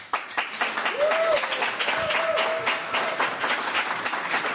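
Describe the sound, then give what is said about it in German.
Audience applause for a guest musician being welcomed on stage, dense and steady clapping that stays loud throughout and eases slightly toward the end. “Bitte machen Sie richtig viel Lärm”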